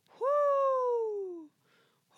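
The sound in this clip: A human voice imitates an owl hooting from atop a fireplace chimney, producing one long, clear 'whoo' that glides steadily downward in pitch, followed by a faint brief sound and the start of another voiced noise.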